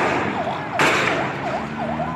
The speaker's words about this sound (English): Those gunshots and wailing ambulances were recorded by Sayed Nakash.